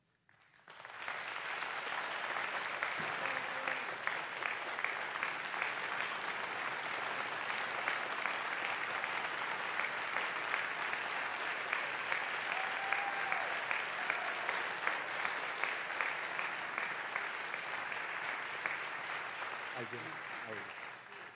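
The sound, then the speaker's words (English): A presidential debate hall audience applauds as the two candidates take the stage. Dense, steady clapping holds at an even level for about twenty seconds before tapering off at the end. “The audience here in the hall has promised to remain silent. No cheers, boos, or other interruptions, except right now, as we welcome to the stage former Vice President Joe Biden and President Donald J. Trump.”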